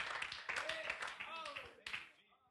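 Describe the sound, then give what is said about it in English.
A church audience claps their hands during a sermon, the clapping running steadily throughout while raised voices and shouts rise over it, tapering toward the end. “Oh, would you clap your hands unto the Lord and somebody shout hallelujah in this place.”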